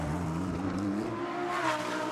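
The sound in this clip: Engine note of the red number 93 Rick Ware Racing NSX race car rounding the final corner during qualifying on the Long Beach street circuit, a sustained harmonic drone that swells briefly near the end.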